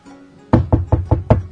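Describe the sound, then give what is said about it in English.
Five firm knocks on an apartment door land in a quick, evenly spaced rhythm. Each is a sharp, hollow thud, with no talking around them. “And somebody knocks on my door.”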